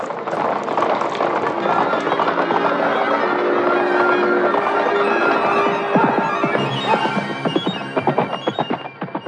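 A horse gallops away, its hoofbeats loud and dense at first, then thinning into distinct, fading beats toward the end.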